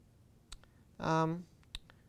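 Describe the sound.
A computer mouse clicks while dragging items in video editing software. A few faint, sharp clicks are spread out, and a short voiced sound falls between them.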